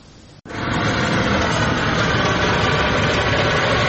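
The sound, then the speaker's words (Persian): The engine of a handmade, homemade car that reaches 100 km/h starts quieter, cuts out in a brief sharp break, then settles into a loud, steady, low rumbling drone that holds to the end. “این اتومبیل دستساز کاملا کاربردی است و تا 100 کیلومتر در ساعت هم سرعت می‌گیرد.”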